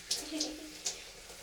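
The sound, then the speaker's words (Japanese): Shower water runs as conditioner is rinsed out of hair in a cramped hotel shower stall: a soft, steady spray hiss broken by three brighter splashes of water. “今リンス流してます。”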